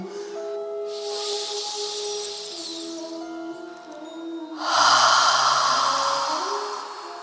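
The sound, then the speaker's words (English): A deep breath drawn in during a guided breathing exercise, heard as two long airy hisses with the second louder, over a soft sustained musical drone. “when you breathe out, feel that warmth in your mouth. Breathe in.”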